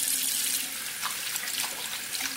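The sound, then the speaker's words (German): Water running from a tap while hands are washed, a steady soft hiss of flowing water with small splashy flickers, quiet and brief, with no voices. “Hände waschen, damit keine Bakterien oder Viren auf uns und dann auch in uns sind.”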